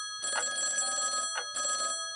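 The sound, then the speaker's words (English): A telephone rings in two bright electronic bursts, the first long and the second shorter, separated by a brief gap, loud and clear with no talk over it. “It's evening. A phone. It rings.”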